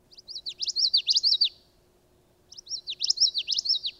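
A small thicket bird sings its witchity song twice, each phrase a quick, high-pitched run of repeated rolling notes, separated by a short pause.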